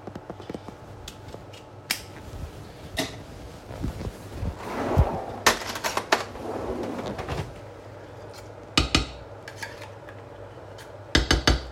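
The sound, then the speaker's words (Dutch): A tin can of concentrate is emptied into a pot, producing sharp metallic clinks and taps, a rougher scraping stretch in the middle, and a few more quick clanks near the end. “Dan blikje concentraat erbij.”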